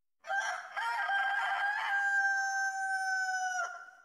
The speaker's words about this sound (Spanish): fue un canto de gallo que para algunos de nosotros... Ahí está. Escuchen. Escuchen.